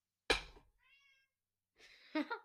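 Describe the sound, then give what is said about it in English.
A cat meows in the background, giving a couple of meows after a brief noise burst. The first is faint, and the second is louder and a little longer. “excuse the cat in the background.”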